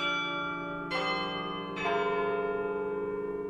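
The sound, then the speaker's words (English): Church bells ring out in Chicago, a few heavy strikes layering over one another into a rich, sustained chiming hum with long resonant tails and no voices. “but it's kind of a throwback to the old days of bells and bell ringers, back when they were the timepieces and radios of the community, back when people actually noticed them.”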